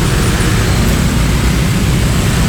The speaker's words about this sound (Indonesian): Sudah mulai banyak kendaraan yang melintas pagi hari ini.